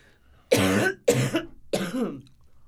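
Coughing and throat clearing from a persistent tickle in the throat of someone a month into quitting smoking: three harsh, distinct bursts separated by short pauses, the last slightly weaker, with no talking.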